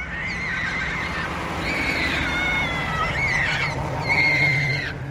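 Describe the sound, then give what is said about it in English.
High, wavering squeals and cries rise over steady outdoor noise as an Australian magpie swoops and repeatedly pecks at a boy riding a scooter in New South Wales. “This is the sound of one unfortunate boy being repeatedly pecked and harangued by a swooping magpie while riding his scooter in New South Wales.”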